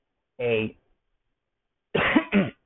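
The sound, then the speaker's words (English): Coughing from someone with a lingering cough: one short, voiced cough, a pause of over a second, then two quick coughs in close succession, fairly loud and alone. “I have a little bit of a cough going on.”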